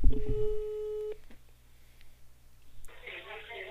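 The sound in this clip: Telephone ringing tone of an outgoing call: one steady, clear electronic tone lasting about a second, followed by quiet line hiss.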